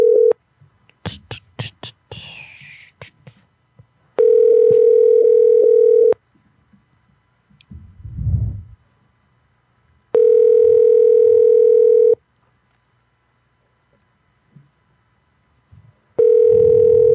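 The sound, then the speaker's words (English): A telephone dials a number with a quick run of keypad beeps. Then come three long, steady ringback tones, each lasting about two seconds, separated by quiet gaps that hold only faint low sounds. “Let's call some peeps. This is a number from somebody from last show sent us.”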